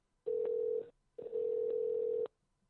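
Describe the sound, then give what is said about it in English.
A telephone rings on an outgoing call as a steady, single-pitched tone in two long bursts. The first burst is shorter and the second lasts about a second, with a short gap between them. “So we're calling a phone, so you might hear ringing.”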